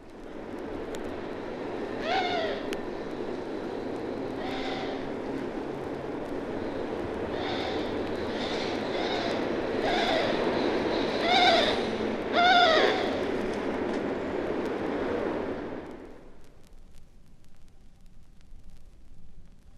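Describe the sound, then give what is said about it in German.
Repeated short nasal bird calls, a flight call given many times at uneven intervals, rise over a steady roar of big-city noise, which cuts off near the end, leaving quieter background. “Und jetzt den näselnden Flugruf, umgeben vom Lärm einer Großstadt.”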